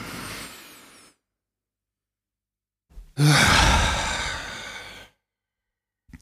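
Deep, slow breathing during a guided breathing exercise: one breath trails off, then after a short silence comes a long, loud, airy breath lasting about two seconds before it stops.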